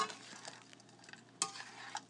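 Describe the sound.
Ingredients thrown into a hot pan sizzle softly: a faint, steady crackling hiss with one sharper burst of rustling partway through.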